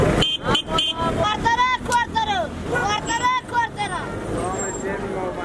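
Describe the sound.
City street traffic in Afghanistan, with vehicle noise and a few horn toots under a steady hubbub of people talking.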